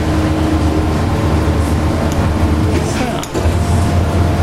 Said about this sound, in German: Dann wird der Teig ausgerollt. Das müssen wir Gott sei Dank nicht per Hand machen, sondern macht eben die schöne Maschine für uns.